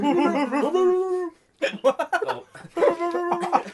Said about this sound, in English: That was a really excited dog.